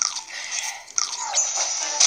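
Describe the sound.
A character eats food in a Zelda video game, with repeated crunchy munching bites over a steady, high tonal game background.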